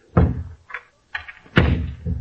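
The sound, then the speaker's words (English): Doors of a chateau study being shut, a few solid wooden thuds and latch clunks spaced across a couple of seconds, each one sharp at the start and quickly fading. “A moment. I close the doors.”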